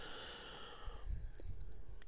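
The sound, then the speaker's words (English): A slow, deep breath drawn in and let out during a guided breathing exercise, a soft airy rush of air without any talk. “we're going to take 3 deep breaths in and out to just center into where we are now. Let's go. Breathe in. And breathe out.”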